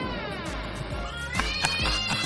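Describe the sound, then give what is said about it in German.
Drawn-out, wavering cat meows in a radio jingle are layered over music with a regular low thump, and the meowing continues throughout. “Die Katze ist... Ist eine Katze hinten dran, ja, mega.”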